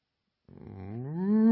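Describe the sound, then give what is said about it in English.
A single cow moo starts after a short silence. It is a low, harmonic bellow that swells louder and rises slightly in pitch as it goes on. “you're going to end up mooing like a cow”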